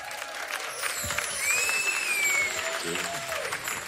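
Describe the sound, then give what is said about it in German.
Audience applause at a concert as a performer is called to the stage: steady, continuous clapping that swells slightly in the middle, with people talking over it. “Leute, können wir mal Applaus für meinen Bruder”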